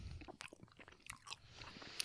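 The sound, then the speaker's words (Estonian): Someone bites a doughy-textured snack in half and chews it. Faint, soft crunches and moist mouth sounds come as a few brief, separate bites with quiet gaps between, with no talking. “ja nüüd ma hammustan ta kohe pooleks ja vaatame, mis siis teeb”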